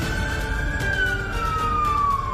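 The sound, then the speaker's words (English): Siren of an ambulance dispatched from a fire station, a single sustained wailing tone that slides slowly downward in pitch over a steady low rumble, at a constant moderate level. “the ambulance is on the way to you.”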